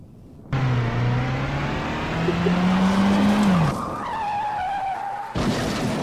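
A car engine roars to life and revs hard with tires squealing. A loud, sustained drone climbs slightly in pitch, then drops sharply into a higher squealing whine that cuts off abruptly.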